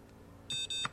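Two short electronic beeps from a charging electronic ruler being switched off, quick high tones in close succession over faint background noise.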